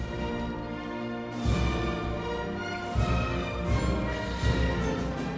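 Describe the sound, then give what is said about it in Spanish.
Spain's national anthem performed instrumentally, with full, sustained brass and band chords and several accented swells or cymbal hits punctuating the steady, stately line. “Es el himno de España, que suena así.”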